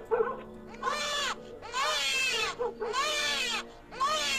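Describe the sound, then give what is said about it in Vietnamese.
A baby cries at night in a few long, wavering wails that come in quick succession. Each wail arches up and down in pitch and is fairly loud. “Thế rồi có tiếng trẻ con nhà nào khóc dạ đẻ.”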